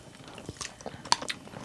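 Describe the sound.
Chewing a coffee and chocolate chip treat: soft, irregular crunches and moist mouth clicks, quiet overall, with one sharper crunch partway through and no talk.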